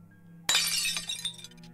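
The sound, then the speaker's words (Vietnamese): A bowl of hot porridge is dropped and shatters on a brick floor: one sudden loud crash about midway, then a scatter of bright clinking fragments that fades out over the next second. “buông rơi luôn tô cháo nghỉ ngút xuống nền gạch vỡ tan”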